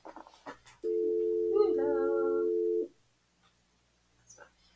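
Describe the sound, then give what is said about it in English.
A telephone dial tone hums steadily for about two seconds as someone plays with a phone, a single mid-pitched tone with faint overtones, with brief soft talk just before and after. “Sorry about that, y'all. I was playing with the phone.”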